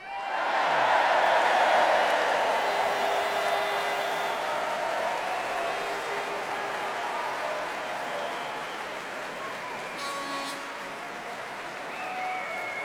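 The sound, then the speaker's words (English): A large crowd cheering outdoors in a park, a loud roar that swells in the first seconds and then settles into sustained, slightly softer crowd noise mixed with clapping. “we can almost hear them, and we hopefully will be able to hear them in the next few minutes. Everyone in Hyde Park.”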